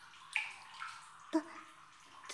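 Water moves in a cherry-blossom bath: a few soft splashes and drip-like plops stand out, each trailing off into quiet ripples between them.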